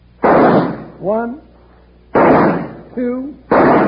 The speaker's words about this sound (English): Now, that's shooting.